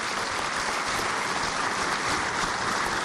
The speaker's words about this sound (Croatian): Poštovana publiko, ja bih zamolio za još jedan aplauz za naše goste iz Grčke.